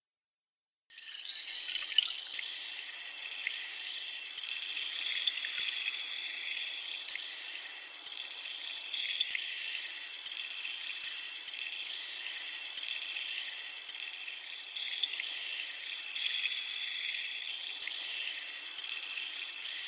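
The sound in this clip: Water running steadily to rinse an ear during an ear-washing treatment, a continuous, even hiss that starts abruptly after a moment of silence and holds without a break.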